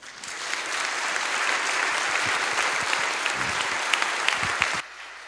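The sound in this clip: An audience applauds to welcome a speaker at a morning gathering: a dense, loud wash of clapping that holds steady for nearly five seconds, then stops abruptly.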